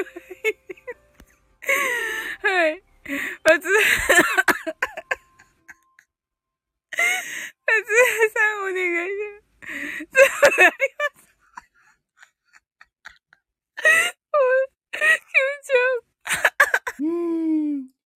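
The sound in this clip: A voice imitates crying, letting out several bursts of high, wavering wails and sobs separated by short silences, with some quick breathy catches between the cries.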